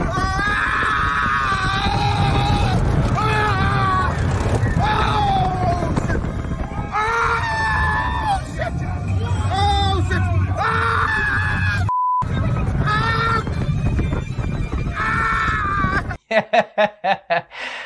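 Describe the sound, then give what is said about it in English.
Screams and laughter from people riding a roller coaster, loud and continuous over a steady rumble of the ride, with several choppy bursts near the end. “this is a clip from us riding a roller coaster before coronavirus.”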